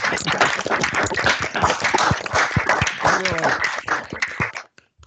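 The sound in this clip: Applause from attendees with their microphones opened at a conference's day-two opening session, uneven clapping with sharp individual claps and a voice mixed in, before cutting off abruptly near the end.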